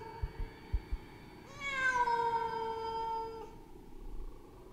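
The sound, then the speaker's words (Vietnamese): A cat gives one long, drawn-out, mournful meow in a deserted graveyard at night. The meow is steady and tonal, preceded by a few faint clicks and fading into low background hiss. “Trong không gian vang lên âm thanh con mèo kêu đến não ruột.”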